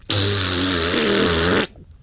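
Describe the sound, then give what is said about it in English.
A raspberry blown on a clarinet makes one sustained, buzzy, low-pitched blat lasting about one and a half seconds. It is rich in harmonics, loud and steady throughout, then stops abruptly. “She picked it up and blew a raspberry in the direction of the bowl.”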